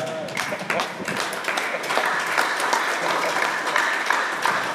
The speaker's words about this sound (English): Are you clapping or what are you trying to do?